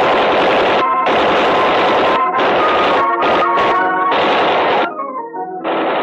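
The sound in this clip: Bursts of gunfire aimed at a man by a ship's rail in a night scene aboard a ship landing contraband arms. Several long rattling volleys come with short gaps between them.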